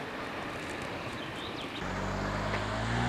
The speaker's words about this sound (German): Noch eben das Auto abwarten. Jetzt kommt das nächste Auto. Noch ein Auto abwarten. Kommt wieder ein Auto.